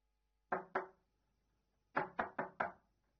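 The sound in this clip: Knocking on an apartment door: two firm knocks, a pause of over a second, then four quicker knocks in a steady run, clear against a quiet background.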